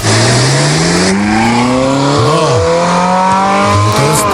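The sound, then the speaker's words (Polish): Classic Ferrari petrol engine revving, a loud continuous harmonic roar whose pitch climbs steadily, broken by a few quick throttle blips that swoop up and back down. “teraz zrobimy mały radiowy eksperyment, bo klasyczne Ferrari, to takie klasyczne, brzmi tak...”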